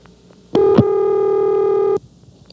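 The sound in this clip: Ring signal on a telephone line through an old exchange: a single steady buzzing tone lasting about a second and a half, with clicks around it and near-silence on either side.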